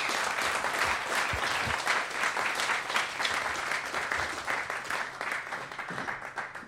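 Applause for the Arsenal Foundation at a live event at the Victoria Tavern: dense, sustained crowd clapping that holds steady throughout and thins slightly toward the end.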